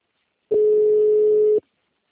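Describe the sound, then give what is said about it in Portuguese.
A single steady telephone tone sounds alone on the line after a dropped call: a plain mid-pitched beep lasting about a second, with silence before and after. “Oi, caiu a ligação.”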